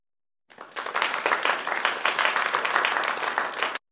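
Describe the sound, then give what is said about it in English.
Hands clapping in a quick, continuous run of many sharp claps lasting about three seconds, fairly loud and heard alone. “Clap.”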